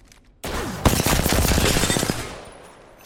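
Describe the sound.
Rapid gunfire from a weapon in the Apex Legends video game: a dense burst of many quick, evenly spaced shots after a loud onset, then the noise fading away, with no talking.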